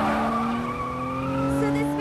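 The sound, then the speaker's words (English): A car swerves and skids, speeding erratically through Chicago streets, with a loud continuous tire squeal over the engine that holds steady throughout. “The car speeds drunkenly through the Chicago streets.”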